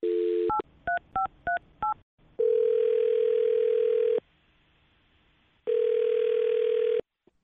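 A telephone dial tone is cut off by a quick run of keypad dialing beeps as a call is placed, followed by two long, steady ringback tones separated by a quiet pause.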